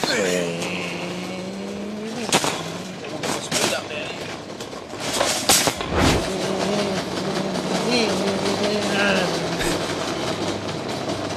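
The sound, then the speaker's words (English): A man's voice imitates a car engine while he pushes a shopping trolley in a supermarket, producing a loud, continuous droning growl whose pitch swells and dips like revving, with a few clattering knocks along the way. “we found out on air this week that you still make engine noises when pushing a trolley around”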